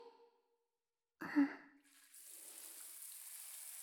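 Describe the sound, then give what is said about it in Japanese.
Water rinsing soap away: a short soft splash, then a steady, faint hiss of flowing water that runs to the end, with no talking. “ソープをいっぱい使いましたから、しっかり汚れは落ちたはずですよ。ではでは流していきますね。”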